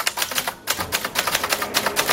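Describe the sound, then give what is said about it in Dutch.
Typewriter keys clatter in a rapid, uneven run of many sharp clicks as people hammer away at a row of orange typewriters set out in a library in Zwolle. “Hij zette in een biep in Zwolle een hele rits oranje typemachines neer. En daar kunnen mensen dan lekker rammen op die toetsen.”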